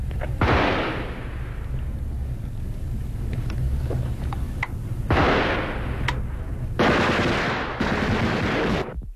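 Gunfire erupts in fog and snow during wartime fighting near a lakeside hotel. Sharp cracks and longer roaring bursts keep coming throughout, loud and harsh, with no voices.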